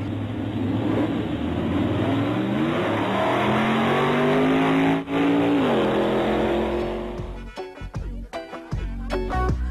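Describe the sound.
A Hummer engine revs loudly and steadily, its harmonic drone climbing in pitch and then dropping near six seconds before cutting away to a few sharp thumps.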